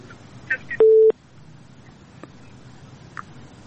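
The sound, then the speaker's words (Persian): A telephone busy tone after a listener's call-in drops: one short, steady mid-pitched beep stands out over faint background hiss, with a few small clicks around it. “تماس شنوندی ما قطع شد”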